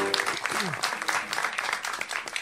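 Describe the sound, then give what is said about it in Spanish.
Audience applause for a jazz piano trio: thick, lively clapping that stays even throughout, with a brief voice rising above it near the start. “Bueno, sí, merecen los aplausos.”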